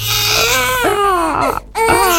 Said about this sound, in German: ein Baby weint im Supermarkt, im Café oder im Zug